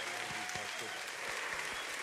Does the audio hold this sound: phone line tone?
no

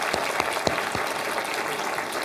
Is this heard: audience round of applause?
yes

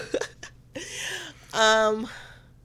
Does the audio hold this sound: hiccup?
yes

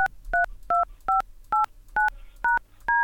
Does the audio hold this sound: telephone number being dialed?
yes

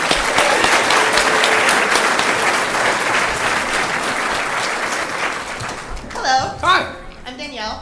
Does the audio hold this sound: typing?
no

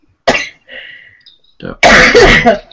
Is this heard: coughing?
yes

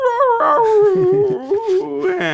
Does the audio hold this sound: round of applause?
no

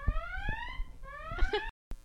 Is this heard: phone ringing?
yes

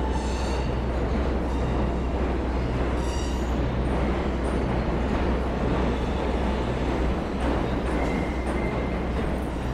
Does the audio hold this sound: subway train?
yes

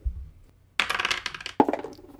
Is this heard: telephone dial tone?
no

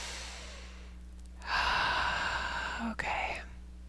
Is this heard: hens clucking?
no

